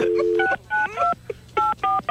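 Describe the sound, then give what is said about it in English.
Telephone dialing tones beep as a number is keyed in, several short steady touch-tone chirps in quick succession separated by brief gaps, clear and fairly loud. “Let's try to get Rhonda back on the line.”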